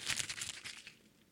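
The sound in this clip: A paper envelope is torn open in a brief, soft crinkling rip that fades out after about a second.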